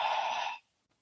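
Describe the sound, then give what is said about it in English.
A slow breath is let out through the mouth during a guided breathing exercise, a soft, airy rush lasting about half a second before it cuts to silence. “breathing in through the nose, and let it out the mouth”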